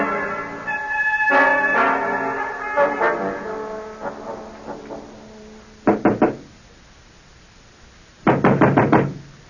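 Knocking on a door comes in two quick bursts of several sharp, loud raps, with a pause between the groups and no talk.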